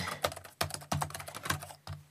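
Typing on a computer keyboard while a search term is entered: a rapid, steady run of keystrokes with several sharper, louder strikes among the softer taps.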